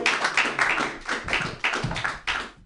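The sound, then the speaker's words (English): Audience applause for a comedian being introduced at a comedy show: dense, steady clapping with a few swells and dips that carries on throughout, then cuts off abruptly at the end. “Put your hands together, everyone, for Kyle Morrissey. Yay!”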